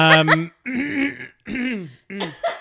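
Throat clearing from someone with a clogged throat: four rough, throaty, voiced bursts in a row, each about half a second, fairly loud and heard alone without other talk.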